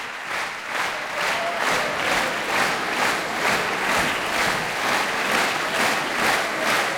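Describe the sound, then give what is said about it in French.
Concert audience at La Roque d'Anthéron applauding to call two performers back on stage: dense, steady clapping that pulses in a regular rhythm, with the crowd clapping in unison throughout. “Vous l'entendez, Ludmila Bernskaya et Arthur Ancel sont rappelés par le public de la Roque d'Antero. Ils reviennent sur scène.”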